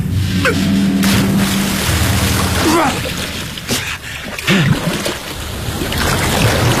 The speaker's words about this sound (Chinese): 有海的波浪声。